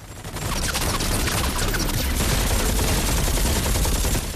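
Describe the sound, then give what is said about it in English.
Heavy gunfire in a film ambush, where soldiers hidden in a warehouse trade fire with men in a truck: rapid, continuous automatic bursts, loud and unbroken throughout. “French soldiers concealed in the warehouse prepare to ambush the truck. Kruger and Dekirk fire at them.”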